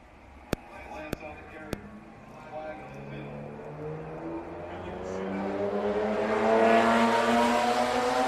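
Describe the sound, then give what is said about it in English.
Cars driven fast and recklessly, engines revving with a rising pitch as they accelerate, the roar growing steadily louder toward the end, with three sharp clicks near the start. “I hear people driving crazy.”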